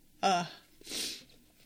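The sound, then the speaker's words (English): A person cries: one short voiced sobbing gasp, then a breathy sniffling exhale a moment later, both faint and heard alone. “I hate when I cry like this, guys. I hate it.”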